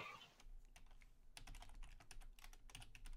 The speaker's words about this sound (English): Oh, he's rolling dice.